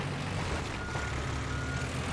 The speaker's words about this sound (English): There's a big old crane here. What am I doing using a propane tank? We can just drive a crane through a wall.